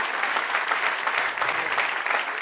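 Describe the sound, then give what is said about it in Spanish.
A church audience applauds with dense, steady clapping that holds at an even level from start to finish with no pauses. “Dale aplauso al Señor.”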